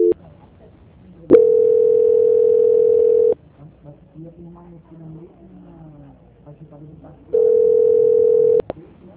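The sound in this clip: Two long, steady mid-pitched telephone tones play while a caller holds on a bank's line during a transfer to quality control. Each tone lasts about two seconds, with low murmuring noise between them.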